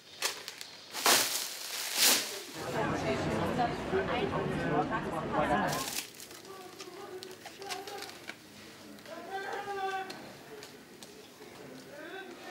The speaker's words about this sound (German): Jetzt sind gerade die ersten Seinmark-DVDs geliefert worden, aus Deutschland. 2 Wochen habe ich darauf gewartet. Puh, aufregend. Jetzt heißt es auspacken und reinschauen.